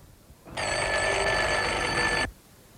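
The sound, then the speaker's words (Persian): A doorbell rings after its button is pressed: one loud, steady electric ring lasting under two seconds, starting and stopping abruptly over faint background noise. “با دستان لرزان تگمه زنگ را زیر کرد.”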